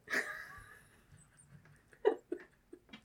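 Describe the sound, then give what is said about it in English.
A wheeze from a person, a brief breathy rasp with a thin whistling edge, followed by a few short, quiet vocal sounds. “We should count how many times I wheeze.”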